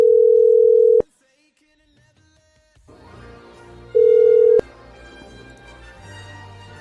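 A telephone ringback tone while calling a number: two steady, mid-pitched tones, the first lasting about a second and the second shorter, with quiet background noise between them.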